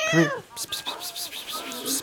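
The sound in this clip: A pet cat meows once, a short high-pitched cry, followed by soft human talking as the cat is coaxed to take its medication.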